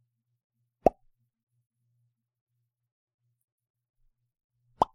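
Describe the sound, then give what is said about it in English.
A mouth imitates a popping bubble with two crisp, short pops spaced several seconds apart, each sharp and clean against near silence. “I'm just making a sort of popping noise, like a bubble sort of going like, you know?”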